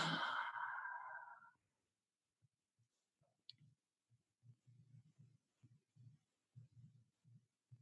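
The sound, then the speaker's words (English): A deep exhale during a breathing exercise: a long, breathy rush of air lasting about a second, then silence, followed by many soft, regular low ticks. “Take a deep breath. Hold it. And exhale.”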